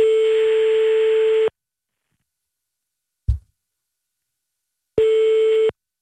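A telephone call tone sounds while a number is dialled out: a steady buzzing tone lasts about a second and a half, then comes a long silence broken by a short low thump, then a second, shorter tone.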